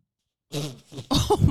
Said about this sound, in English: That was it was a burp. That was a fart burp.